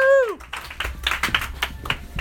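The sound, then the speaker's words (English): Audience applause and scattered claps welcoming the improv comedy group Brave and Dandy at the Comedy Loft, opening the night. A voice calls out at the start, then uneven bursts of clapping continue. “put your hands together, give a nice, warm, loving welcome to Brave and Dandy!”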